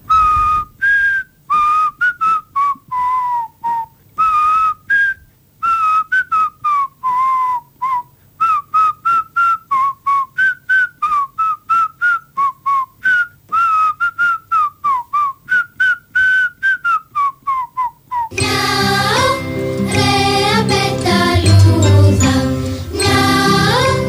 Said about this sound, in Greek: Όταν έχει κάτι να τον πιέζει, σφυρίζει. Θα ακούσουμε εδώ τι ακριβώς σφύριζε.